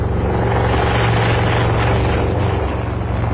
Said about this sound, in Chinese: 一架直升飞机在草场上徐徐降落，柳英在鲁司令员和骆玉兰的陪伴下慢慢走来。